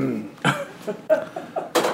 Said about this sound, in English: now I've got to clear my throat.